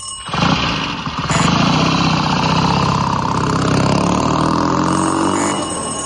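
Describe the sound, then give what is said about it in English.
Motorcycle engine catching with a short burst, then running in a continuous buzzing, throbbing drone at a fairly even, loud level to the end. “That's not a Land Rover. What is it, then? It's a motor bicycle. So it is.”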